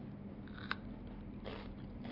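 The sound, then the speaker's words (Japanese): Quiet, crisp bites and chewing of a crunchy cucumber dipped in miso, with a few soft crunching bursts over a low steady hum. “たっぷりつけてきゅうりと一緒にいただきます。”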